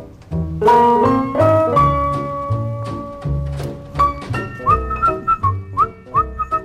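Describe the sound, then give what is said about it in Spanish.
A man whistles a song melody over instrumental accompaniment with a steady beat. Long held notes give way to short repeated phrases with quick upward pitch slides. “Pero qué ganas tenía yo de silbar esta canción y de escuchar de nuevo las palabras de Salvador”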